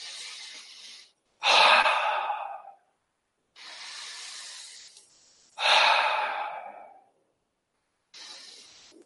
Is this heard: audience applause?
no

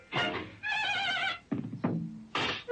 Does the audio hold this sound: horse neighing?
yes

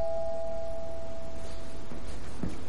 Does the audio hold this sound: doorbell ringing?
yes

